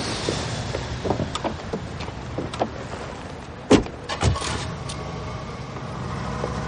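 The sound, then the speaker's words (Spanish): People get into a car and it starts. A few soft knocks and rustles are followed by two sharp thuds like car doors shutting, all over a steady low rumble. “Luego, los dos se suben al vehículo y yo arranco.”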